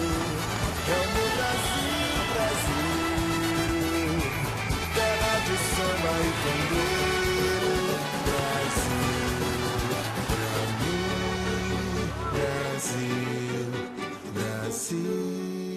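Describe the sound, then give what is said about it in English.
The BBC's 2014 World Cup theme music plays as loud, dense, lively music with a steady rhythm and layered instruments that run continuously. “That was the sound of the BBC's World Cup theme music for 2014.”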